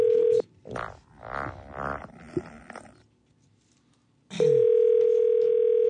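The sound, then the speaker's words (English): Steady telephone tone heard after dialing an extension number for customer service and technical support; a short burst of tone cuts off, low grunting-like noises follow, then the even, mid-pitched tone returns loud and holds steady to the end. “To reach customer service and technical support, dial 31. Let's try 31.”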